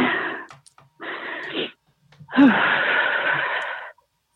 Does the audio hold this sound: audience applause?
no